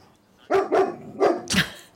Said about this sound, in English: I have no idea why he started barking.